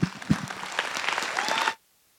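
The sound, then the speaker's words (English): A church audience applauds to welcome a guest speaker. The clapping is brisk and builds to a steady level, then cuts off abruptly into silence. A voice is heard briefly at the very start. “Veritas Church, would you please welcome Rayshon Graves.”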